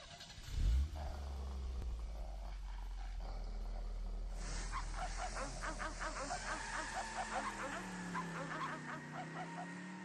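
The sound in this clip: A car engine starts with a short low burst, then settles into a steady deep idle rumble. About halfway through, loud animal cries break in over the engine and carry on to the end.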